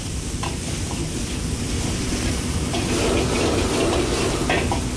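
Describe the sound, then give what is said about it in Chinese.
Steady sizzling and frying as diced stem lettuce, minced pickled chili and bean paste are stir-fried over low heat, a continuous crackle with occasional stirring scrapes and no talk. “然后加入处理好的青笋丁、泡椒末和豆瓣酱，继续开小火把料头炒出香味和颜色。”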